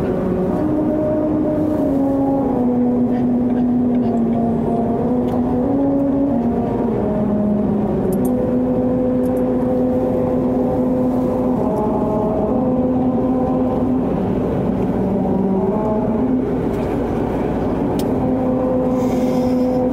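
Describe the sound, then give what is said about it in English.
Tires of a car driving at a constant 45 mph over musical rumble strips make a droning tonal hum. The hum steps between pitches to trace a slow melody over continuous road noise. “the way these musical rumble strips work is that you have to stay at a constant 45 miles per hour. Don't go any slower, don't go any faster, because it won't sound right.”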